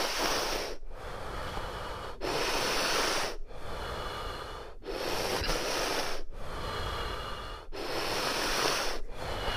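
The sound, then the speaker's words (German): Deep, hissing breaths in and out during a breathing exercise follow each other in a steady rhythm. Each breath lasts over a second, with brief quiet gaps between them. “Letzter Atemzug ein und aus und halten.”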